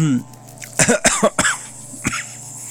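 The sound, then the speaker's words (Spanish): Several harsh coughs from a man suffering from a bad cough: a rapid burst of throaty hacks, then a pause and one more short cough. “Ahí ando bien malo de la tos. Espérenme tantito.”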